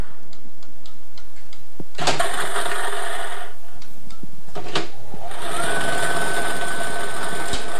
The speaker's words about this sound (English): Let's get these balls spinning. First number up is 6. Your second win, number 4, over to the Multi-X machine.